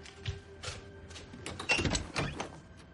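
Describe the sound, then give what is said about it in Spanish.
An apartment front door in Berlin is opened: a few soft clunks and rattles, then a busier cluster of latch and handle knocks toward the end, quiet and without voices. “En su apartamento, Anke mira extrañada hacia la puerta de entrada.”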